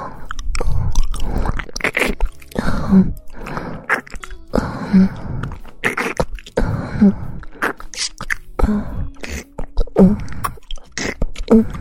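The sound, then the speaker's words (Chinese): Wet mouth sounds of someone biting and chewing on a sausage, with many soft crunching, smacking bursts in an uneven rhythm, moderately loud and close, with no talking. “让姐姐帮你舔舔尝尝这根香肠到底是什么味道的。”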